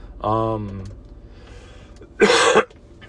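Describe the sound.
Throat clearing followed by one loud, harsh cough, with a quiet pause between the two sounds.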